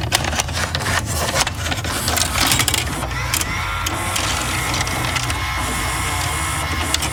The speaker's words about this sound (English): This is a claw machine.